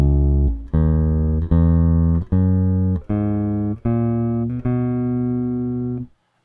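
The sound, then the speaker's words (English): Bass guitar playing a regular major scale: seven separate plucked notes in an even, steady rhythm, each sustained until the next, the final note held longest before stopping. “I can demonstrate that now by playing a regular major scale for you.”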